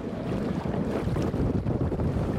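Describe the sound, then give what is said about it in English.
Wind and water noise around classic yachts racing on a lake, a steady, dense rushing roar with gusty flutter and no voices. “windmills on nearby Slieve Russell, which look down on the classic yachts racing on the lake”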